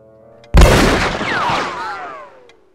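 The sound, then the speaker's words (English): A single loud pistol shot cracks out abruptly after a brief quiet moment, followed by a long, rumbling decay with whining tones that slide downward before fading to silence. “she raises the pistol.”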